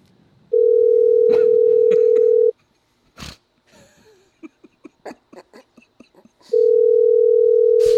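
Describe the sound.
Telephone ringback tone on an unanswered call to a mattress store: two long, steady, loud tone bursts, with brief talk and laughter in the gap between them.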